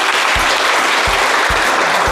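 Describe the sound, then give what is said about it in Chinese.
An audience of factory staff applauds to welcome a legal expert at a public legal-education event, producing dense, steady clapping that stays loud and unbroken throughout. “今天我们也请到了我们的法律专家，大家掌声欢迎。”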